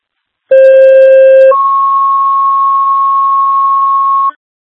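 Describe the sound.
Emergency dispatch alert tones for a medical call: a loud, steady two-tone sequence, with a lower tone for about a second followed by a higher tone held for roughly three seconds, heard alone.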